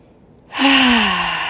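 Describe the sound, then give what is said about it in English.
A deep breath is let out in a loud exhale during a meditation exercise. After a quiet moment comes one long, breathy rush of air, with a faint voiced tone that slides downward as it fades. “Take three deep breaths, deep, deep into your belly, and exhale loudly.”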